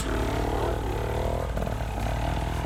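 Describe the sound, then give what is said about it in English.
A motorcycle engine runs after being bump started, a steady, buzzy drone with a low hum that holds throughout. “Got his bike started because he bump started it.”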